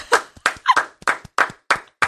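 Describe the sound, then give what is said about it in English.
Hosts do a little cheer for a guest: a rhythmic run of sharp, evenly spaced hand claps, about seven in a row, with a short vocal shout partway through. “No, you didn't tell me you guys were going to do like a little cheer.”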